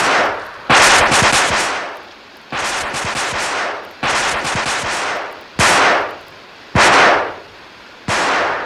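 Loud bursts of rapid gunfire ring out in a dramatized shootout among rooftop chimneys. Several sustained volleys of fast shots follow one another, with short gaps between them and no voices.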